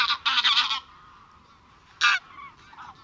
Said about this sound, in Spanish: A pocos metros, en la vertical, pero seguramente por encima del banco de niebla, vuela un ganso silvestre. Se ha separado de los suyos y grazna para encontrarles.